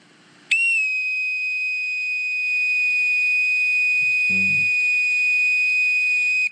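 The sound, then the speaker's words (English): Bosun's call whistle blown at its low pitch: one shrill, steady tone that starts abruptly and holds for about six seconds before cutting off, with a brief soft thump partway through. “The first sound, starting by holding the bosun's call in the proper manner, is the low pitch. I am in a clenched position. I'll explain those later. Sounds like this.”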